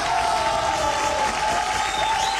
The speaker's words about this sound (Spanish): Aplausos, muchísimos aplausos que nos permiten iniciar precisamente este programa.